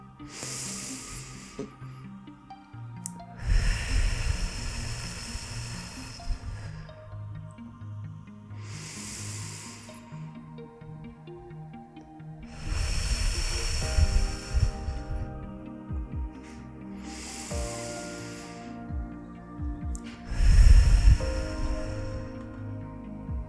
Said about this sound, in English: inhaling through our nose and exhaling through our mouths. Let's start right now and let's feel how we start grounding through our breath.